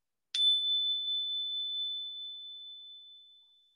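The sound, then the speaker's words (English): A single strike of a small bell during a guided relaxation gives a high, pure ringing tone. It sustains and slowly fades over about three seconds, heard alone and fairly soft. “just gonna make a little bell noise.”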